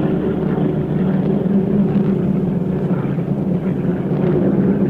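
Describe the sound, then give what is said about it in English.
American bomber aircraft flying overhead produce a steady, heavy engine drone, a continuous low rumble that holds at an even loudness without breaks. “The American bombers fly above their heads. They also drop their loads. Their bombs.”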